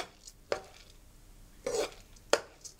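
Coconut cream and glutinous rice are stirred together, giving a few faint, brief scraping strokes spaced apart over near-silence.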